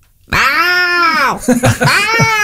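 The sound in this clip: A person imitates the meow of a small house cat: first one long, drawn-out meow that rises and falls, then several shorter, broken meow-like sounds. It is loud and has no background sound.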